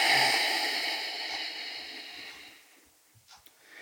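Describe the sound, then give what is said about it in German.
A deep breath at the start of a yoga session, heard as a long, soft, airy exhale that fades gradually to near silence, with a few faint small sounds after it. “atmen wir erstmal tief ein und aus. Ein paar Mal.”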